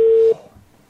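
A single telephone tone on an outgoing call, a steady mid-pitched beep held for about a third of a second before cutting to near silence.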